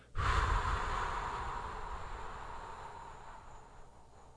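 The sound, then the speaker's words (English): A person breathes out hard, emptying all the air from the lungs in one long, breathy hiss. It starts strongly and fades gradually over several seconds, with no talking. “Start out by breathing out all the air in your lungs, right? So you just,”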